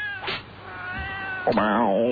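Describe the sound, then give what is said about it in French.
A cat meows over a crackly, band-limited CB radio channel: a drawn-out, thin meow followed by a louder, wavering one near the end, over a steady hiss. “Si t'as des chats, tu les ranges.”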